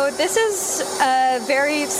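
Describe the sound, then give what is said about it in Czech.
A vacuum cleaner with a long hose removes dust from old music scores. A steady motor whine and airy hiss run beneath a person talking. “Zapínáme vysavač, je od něj taková dlouhá hadice.”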